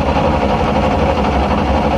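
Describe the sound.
A car engine cranks without catching. It makes a loud, steady mechanical churning drone with a faint rapid pulsing that runs unbroken through the whole clip.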